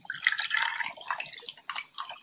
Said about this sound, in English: Yeah, it's all poured in the glass.